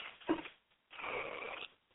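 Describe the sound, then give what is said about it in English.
Labored breathing from a person struggling to get air: a short, rough intake followed by a longer, strained, rasping breath, both faint and alone. “I'm having a little difficult time breathing.”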